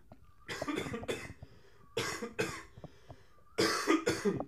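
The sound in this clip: Someone coughs after choking on something, in three separate bursts of harsh, loud coughs, with brief quiet gaps between them.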